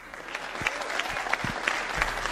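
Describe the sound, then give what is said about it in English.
Crowd applause from a home crowd at a baseball game after a walk-off win in extra innings: dense, steady clapping that holds at a constant level throughout. “I think we need another round of applause for that.”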